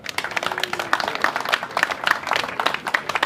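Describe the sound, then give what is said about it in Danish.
Audience applause as a chairman of a Danish gathering is welcomed to speak. Many hands clap in a brisk, uneven patter at moderate loudness throughout, with no speech over it. “Nu vil jeg give ordet til vores øh, kære formand, Kurt. Giv ham en stor hånd, mine damer og herrer.”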